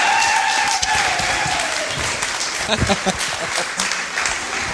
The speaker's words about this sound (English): Let's put our hands together and welcome Chris today.